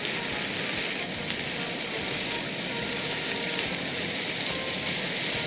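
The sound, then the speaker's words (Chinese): Mushrooms are stir-fried after crushed garlic has been sautéed, giving a loud, continuous sizzle with a steady crackling hiss throughout and no talk over it. “那爆香以后呢，我们再把那个羊菇下去炒。”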